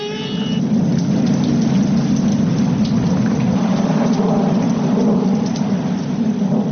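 A thunderstorm with heavy rain gives a dense, constant hiss of downpour over a deep, sustained low rumble of thunder, loud and unbroken throughout.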